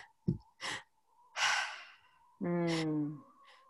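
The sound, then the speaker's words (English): A demonstrated breathing pattern: a first inhale drawn into the lower belly, a second inhale on top into the chest, then one long, audible, partly voiced sighing exhale that lets all the air out. Soft breath clicks come before the inhales, with no talk. “you're starting the inhale from the lower part of your belly. And instead of going right to an exhale, you're doing a second inhale into your chest and then you're letting it all out. So it sounds like this.”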